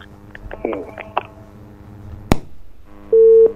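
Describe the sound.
A telephone busy tone sounds after a phone-in caller's line drops. Scattered faint clicks and one sharp click come first, then a loud, steady single-pitched tone at the end.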